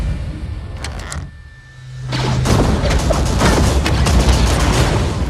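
Blaster gunshots in a science-fiction film action scene: a quick cluster of sharp high shots, a brief lull, then a loud, dense burst of firing and crashing noise that continues to the end.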